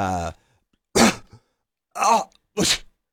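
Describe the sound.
Three short, rough coughs clear the throat after a brief bit of voice. Each is a harsh burst, with silence between them.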